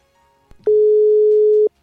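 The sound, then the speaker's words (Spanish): A telephone ringing tone heard while someone is called on air: a single steady, low-pitched tone lasting about a second, opened by a brief click and ending abruptly. “Vamos a llamar a Seba Nauj para charlar un ratito. A ver, ahí te llamo, Sebita, ¿eh?”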